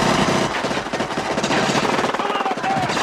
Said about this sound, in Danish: Der løber bare folk rundt med gevær og skyder hinanden i fjæset.